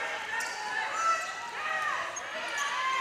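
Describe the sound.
Volleyball bounced on the floor by a server at the line before a serve, a few dull thuds under steady talk.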